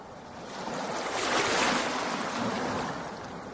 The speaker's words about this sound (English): The crashing waves of Bristol Bay are affecting much more than the fishing vessels out on the water.